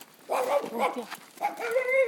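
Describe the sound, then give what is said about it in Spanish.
Dogs barking, yipping and whining excitedly at walkers and their dog passing through a village, in a few short, agitated bursts with no talk. “Esto nos pasa en cada pueblo al día que pasamos, porque al ver a Kenzie todos los perros se alteran.”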